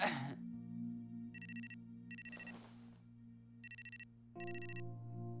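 A phone ringtone plays in four short, bright electronic trilling bursts, grouped in two pairs, fairly quiet over a steady low hum, with a brief rush of hiss between the pairs.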